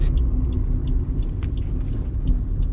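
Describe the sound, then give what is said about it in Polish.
Steady low rumble of a car driving slowly over a rough, badly damaged street surface, a continuous heavy road noise with no voices. “jadę na ulicę Sterniczą, zobaczyć jak wygląda nawierzchnia.”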